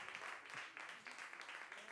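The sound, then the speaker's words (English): Faint audience applause at a jazz concert in Lyon: a quiet, continuous patter of clapping hands that stays at an even level throughout. “Ah, c'est vraiment un concert en fait. Hein. Ouais. Ça fait clap clap.”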